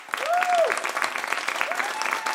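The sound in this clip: An audience applauds to welcome two guests. Busy, crackling clapping swells at the start and continues steadily, while a couple of drawn-out vocal calls rise over it.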